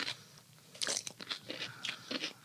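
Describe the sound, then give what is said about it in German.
Crisp crunching of a bite into cucumber dipped in mustard, a few sharp crunches followed by softer chewing. “Ich kann man mal mit Gurke probieren, oder? Ach. Wir haben ja hier Gurken. Oh, nur ablecken. Und jetzt probieren wir das mal.”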